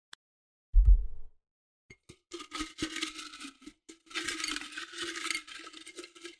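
Paper slips are mixed up by hand to draw the next topic: a soft low thump, then a long stretch of crisp rustling and shuffling with small ticks, with no talk.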